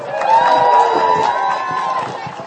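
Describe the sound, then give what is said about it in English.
Audience cheering and whooping at a live show as a performer is introduced, a sustained swell of loud voices with one drawn-out whoop over the crowd noise. “Ladies and gentlemen, give it up for Gareth.”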